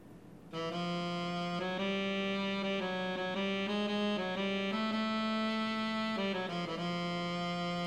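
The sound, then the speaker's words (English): A synthesized melodic line generated from brain sensor data, a sustained harmonic tone stepping through a handful of pitches in even note lengths, heard alone without voices. “did moving averages per note duration, and came up with a melodic contour from the data that sounds like this.”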